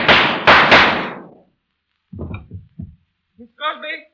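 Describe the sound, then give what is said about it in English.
Three loud gunshots crack out in quick succession, each a sharp bang with a fading tail, followed after a pause by a voice speaking. “I hear some shot.”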